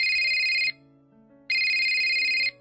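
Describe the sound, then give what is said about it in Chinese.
A telephone ringtone sounds for an incoming call: two bright, high electronic bursts, each under a second, separated by a short pause, with a faint low hum beneath. “有一日系乡下嘅妈咪打电话俾佢”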